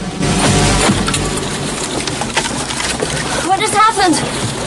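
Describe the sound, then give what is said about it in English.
Loud water splashing and sloshing around an approaching patrol boat, a dense steady wash that lasts throughout. “Rambo peers through a small window and spots a patrol boat approaching.”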